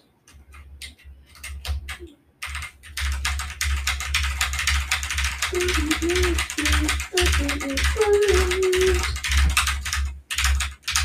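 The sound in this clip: Rapid clicking comes from typing on an Apex Pro TKL mechanical keyboard with white switches and white keycaps. Dense, irregular keystrokes clatter continuously and fairly loudly from start to finish.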